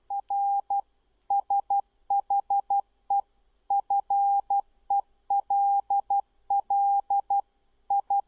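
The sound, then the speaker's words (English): Morse code sent at 12 words per minute: a single steady mid-pitched tone keys on and off in clean short and long elements, grouped into characters with brief gaps, heard alone against near silence. “let me just give you a short example of Morse.”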